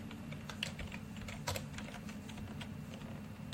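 Keys clicking as code is typed on a computer keyboard, a steady run of quick, light taps with a few sharper strikes, and no voices.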